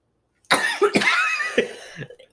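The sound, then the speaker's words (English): A person coughing loudly from an irritated throat: a quick series of harsh bursts, forceful at first, then a couple of weaker ones trailing off, with no talk. “we coughed loudly into the podcast. Yep. Sorry about that.”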